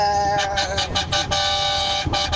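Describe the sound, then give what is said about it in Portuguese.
Car horns honk in a mass horn protest at 4:30 in the morning, with several horns blaring together in sustained, overlapping tones. Some horns cut in and out in short blasts over a continuous loud wall of honking. “vamos começar o buzinaço, vai. A partir de agora, 4:30 da manhã, vamos fazer o buzinaço.”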